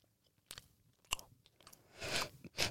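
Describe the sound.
Crunchy chewing of very greasy sour cream and onion potato chips: a few crisp, irregular crunches, with the densest, loudest bursts near the end.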